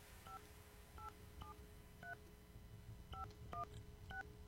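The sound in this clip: A telephone number is dialed as seven faint keypad tones, short beeps spaced unevenly over a steady background hiss.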